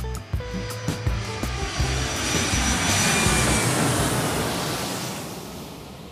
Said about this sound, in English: Flight crew, prepare for takeoff.